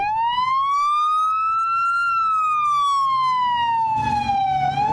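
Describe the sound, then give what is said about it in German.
A Houston police car's siren wails as it drives past over a square: one loud, continuous tone that climbs slowly, then sinks again, with a low road rumble beneath it. “Houston Police ist das. Fährt hier lang über einen Platz.”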